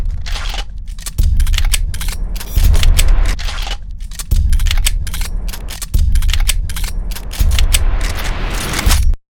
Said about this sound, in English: Guns cocking.